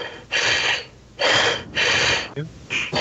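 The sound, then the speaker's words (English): Deep, heavy breathing from a man, a few loud airy breaths drawn in and let out in a slow, steady rhythm, alone with no words. “He takes another deep breath.”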